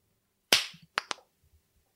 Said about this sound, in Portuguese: Tem que ser junto a palma, velho. Cara, agora você foi pra última palma, velho.